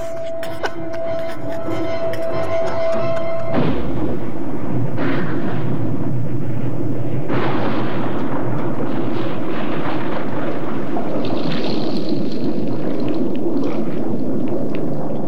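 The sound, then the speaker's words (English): An underwater film explosion as a grenade blows up a shark: a thin tonal sound gives way after a few seconds to a sudden heavy boom that swells into a long, loud, deep roaring rumble lasting to the end. “So they use like a piece of metal or something to pull the pin underwater. Yeah. And the shark explodes.”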